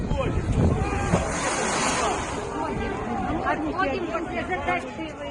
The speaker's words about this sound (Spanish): participaba en esta manifestación que vas a escuchar